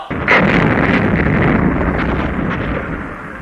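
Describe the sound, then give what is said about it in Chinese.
An artillery barrage fires and shells enemy positions during a battle at Nianzhuang, with massed guns of the People's Liberation Army. The sound is a loud, dense, continuous roar of blasts with no clearly separate shots. “在人民解放军强大的炮群射击下，敌阵地被炸”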